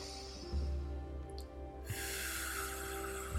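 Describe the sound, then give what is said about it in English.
Slow breathwork breathing, a faint, soft inhale followed by a long, steady hissing exhale blown out as if through a straw, alone and quiet throughout. “nice and slow in through the nose. And when you exhale, blowing out through a straw.”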